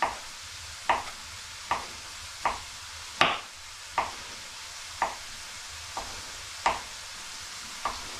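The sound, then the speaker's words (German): A knife chops food into small pieces on a board, with about ten crisp, evenly spaced strikes in a steady rhythm over faint background quiet. “So, jetzt haben wir schon 2/3 klein geschnitten. So, kommen die letzten.”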